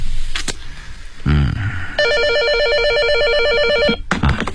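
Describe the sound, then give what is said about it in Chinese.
An electronic telephone ringtone warbles in a quick, regular, repeating pattern for about two seconds, standing out over a constant background of noise and other sounds. “物业公司的孙经理来电话”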